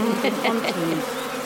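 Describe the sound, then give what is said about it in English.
Honeybees buzz in a steady, moderately loud drone around a beekeeper at an open hive, with a few brief swells in the hum. “I'm very hot actually, it's making me quite hot with the bees buzzing about me.”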